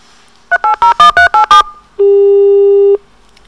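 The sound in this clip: Telephone line tones as a caller is put through on a phone-in line. A quick run of about seven loud dial-pad beeps is followed by a brief pause, then a single long, steady tone that cuts off cleanly.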